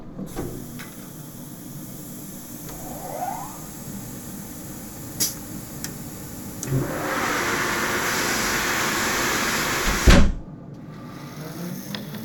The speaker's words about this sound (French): Quelquefois, quand on fend le bois, il y a des tensions dans le bois. Et là, tu vois, il est en train de se fermer, il bloque la lame. Normalement, ça doit pas faire de bruit comme ça, quand ça coupe bien.